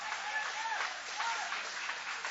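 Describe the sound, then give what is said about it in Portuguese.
An audience in a church applauds in praise of God, with soft, steady clapping that continues evenly throughout at a fairly faint level. “guarda a Bíblia com carinho, e aplaude a Deus com uma alegria.”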